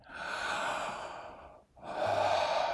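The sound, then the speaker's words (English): Deep breathing in during a breathing exercise, drawing air into the back, heard as two long, airy, steady inhales of moderate loudness separated by a brief pause, with no talking. “So breathe backwards as you breathe in.”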